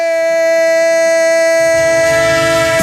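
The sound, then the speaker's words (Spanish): A train sound effect with a loud, sustained, chord-like horn blast holding steady throughout. A rumbling, rattling noise swells beneath it toward the end. “¡Tren de Radio Estadio! El tren de la pura competición”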